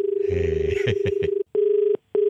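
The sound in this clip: A telephone rings with an electronic tone: a steady, sustained pitched tone broken by two short gaps into loud, even bursts.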